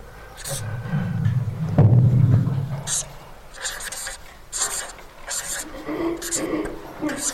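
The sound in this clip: A marker scrapes and squeaks across a board as a history timeline is drawn for a Bible lesson, in several short strokes of uneven length with brief pauses between them.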